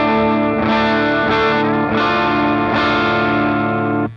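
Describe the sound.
Electric guitar played through an amplifier alone, with a slightly overdriven, edge-of-breakup tone: a few strummed chords struck one after another, each ringing out full and sustained at a steady, loud level before cutting off at the end.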